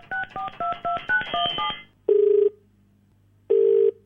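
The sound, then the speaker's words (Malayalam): Phone dialing and ringing as a call goes out to a police officer: a rapid run of beeping keypad tones, then two separate buzzing ring tones with a pause between them, and a third ring starting at the end. “നമുക്ക് എന്തായാലും തിരൂർ എസ്ഐനെ ഒന്ന് വിളിച്ചു നോക്കാം.”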